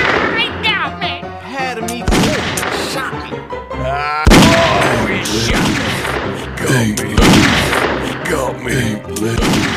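Gunfire in the video game Grizzly Gulch: loud, heavy booming shots mixed with dense, rapid firing and other harsh game noise throughout.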